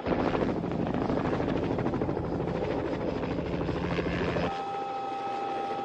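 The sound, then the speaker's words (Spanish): Helicopter engine and rotor noise while the aircraft flies low over water crowded with yachts: a loud, steady, dense drone. Near the end the low rumble drops away, leaving a thinner, steady tonal hum. “¿No puedes bajar un poco más? Sí, quisieras esquiar con el helicóptero, pero eso no se puede hacer.”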